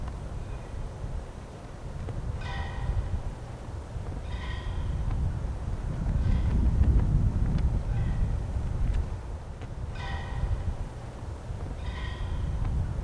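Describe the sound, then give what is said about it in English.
Flag flapping in the wind on a snowy field: a steady low wind rumble that swells midway, with a few short, brighter fluttering rattles recurring at intervals. “That's the sound of the flag blowing in the background.”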